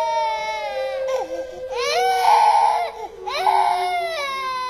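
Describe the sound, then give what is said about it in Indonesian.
A young crown prince cries loudly in three long, wailing bursts, each rising and breaking, separated by brief catches of breath, loud and alone. “Karena tidak ada satupun yang mampu memanjat gunung tersebut, putra mahkota tiba-tiba menangis sekeras-kerasnya.”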